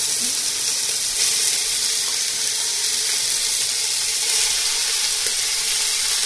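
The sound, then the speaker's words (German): Minced meat sizzles in smoking-hot oil in a pan, a loud, steady hiss that stays even throughout without any talk. “Ich nehme jetzt hier das Hackfleisch, das qualmt, das Öl, nicht das Hackfleisch, sondern Öl. Schön locker rein.”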